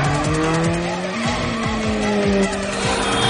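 Revving car engines and squealing tires from a police patrol car chase through city streets in a 2008 terrorism thriller, the car going down stairs and driving against traffic; a loud, continuous roar with shifting engine pitch.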